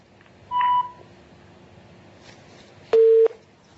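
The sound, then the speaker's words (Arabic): Two short electronic telephone tones sound after a caller's line drops during a call-in. The first tone is higher pitched than the second, and both play over a faint background. “قطع اتصال.”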